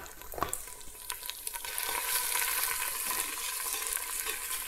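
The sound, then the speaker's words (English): Pesto sizzles as it heats in a pan with oil on medium heat for a pasta dish. A steady, fairly faint frying hiss runs throughout, with a few brief stirring scrapes early on. “Just roughly heat up the pesto. Maybe bring up some of the flavor, maybe a bit more oil actually.”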